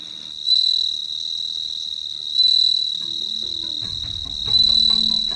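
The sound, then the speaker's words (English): Singing insects chirp in a continuous, high, shrill trill that swells louder three times. Faint low rumbling sounds come in beneath during the second half. “We'll hear more about singing insects in future programs.”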